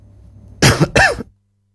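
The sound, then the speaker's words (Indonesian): A short cough, two rough bursts in quick succession, loud and alone over a faint low hum that fades out afterward. “mohon maaf ada iklan batuk dulu ya”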